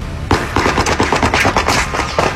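Gunfire in a shootout: a loud, unbroken burst of many rapid shots fired in fast succession, with no talking over it.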